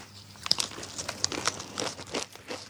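A potato chip bag crinkles in a fast, irregular stream of crisp rustles and crackles, fairly quiet, with sharper snaps scattered throughout and no voices.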